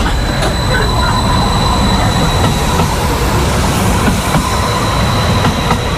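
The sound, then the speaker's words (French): Airport tram departing from a station on its way to Saint-Exupéry airport, a steady loud rail rumble with faint wheel clicks and thin high squealing tones running through it, no voices. “Alors bon, on vient de louper le tram Rhône Express”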